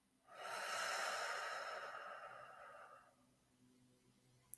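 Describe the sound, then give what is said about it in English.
A deep breath released during a guided breathing exercise, one long, soft, breathy exhale that swells quickly and then fades away over a few seconds. “make this your biggest inhale yet. Breathe in a little more and release.”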